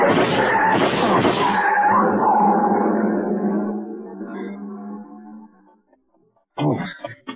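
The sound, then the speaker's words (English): A long black chrome-trimmed coupe roars off with its lights off. The loud, rough engine rush starts strong, then fades steadily over several seconds into near silence. “The car. See the car. The one that just gunned out.”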